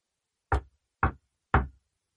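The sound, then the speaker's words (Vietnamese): Three light knocks on a door, evenly spaced about half a second apart, each crisp and short, heard alone with silence between them. “Tiếng gõ cửa nhẹ nhẹ vang lên.”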